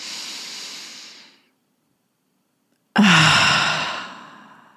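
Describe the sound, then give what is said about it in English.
A deep breath is drawn in through the nose and let out through the mouth during a guided relaxation. Two long, airy, hissing breaths are separated by a silent pause, and the second is louder and more forceful before it trails off. “take a nice deep breath in through the nose, out through the mouth”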